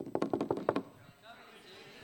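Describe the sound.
Knocking on a door, a quick series of short, faint knocks in a fast rhythm, followed by quiet.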